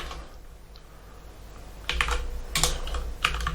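Someone types a project name on a computer keyboard. A quiet, near-silent start gives way to a few quick clusters of crisp keystrokes in the second half.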